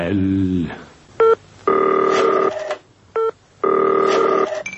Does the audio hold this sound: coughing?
no